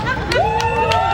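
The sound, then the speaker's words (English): A crowd gathers at a rainbow flag raising for Pride Month at Richmond City Hall, with a steady murmur of babbling voices and a few brief louder bursts. “That's the sound of Richmond Mayor Danny Avula and city council members raising the rainbow flag in honor of Pride Month.”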